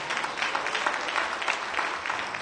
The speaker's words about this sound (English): Give God a hand clap for that.